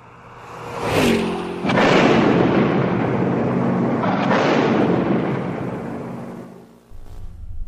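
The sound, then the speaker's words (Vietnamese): A mine blasts beneath a car with a sharp, deep boom, quickly followed by a second heavy surge and a long roaring rumble that swells again midway, then thins out and dips near the end. “Mìn nổ tung cả chiếc xe ô tô lên trời.”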